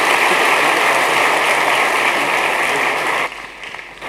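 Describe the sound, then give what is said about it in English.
Congregation applauding during a church service as a preacher is welcomed: dense, steady clapping that holds for about three seconds, then thins out abruptly toward the end. “Another hand as you welcome him.”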